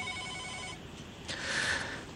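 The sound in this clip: A telephone rings as a radio call-in line connects. A tonal ring is followed by a brighter buzzing burst over faint background hiss, with no talk.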